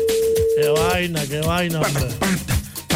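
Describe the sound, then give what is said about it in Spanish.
A telephone rings out after dialing, its steady single-pitched ringback tone holding for about a second before stopping, while voices talk over the line. “Está marcando. A ver qué dice. Esperamos a ver.”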